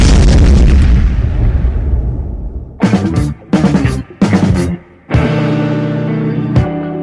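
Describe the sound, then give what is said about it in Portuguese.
A grenade explosion sound effect: a loud, heavy boom opens with a broad roar that slowly fades over a couple of seconds. Several sharp, choppy bursts and a sustained rumble follow, and no one speaks. “Produção, solta aquela granada.”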